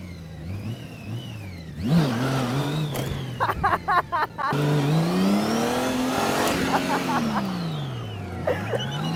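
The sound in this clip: A car engine revving in a racing video game, its tone climbing and dropping repeatedly through gear changes, with a brief stuttering burst of rapid pulses midway before a long smooth rise and fall, loud and continuous throughout.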